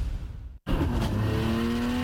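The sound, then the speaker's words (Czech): A drift car's engine roars at a street drifting race, loud and sustained with a steady revving tone and broad hissy noise, broken once by a brief cut to silence. “Nisa Street Drift 2026. Nejnavštěvovanější driftingový závod sezóny už 21. června.”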